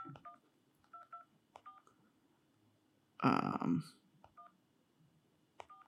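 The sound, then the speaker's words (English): Telephone keypad dialing tones on speakerphone: several short, clear beeps at irregular intervals, interrupted midway by a brief burst of voice. “I'm calling the number, putting it on speaker.”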